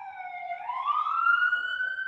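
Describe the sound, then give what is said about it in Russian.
The siren of a passing ambulance or fire engine holds a steady wail, then slides upward in pitch midway and stays high. It is clear and alone. “Это скорая или пожарная, или у них появились такие, я не знаю, может, они были, скорые-пожарные.”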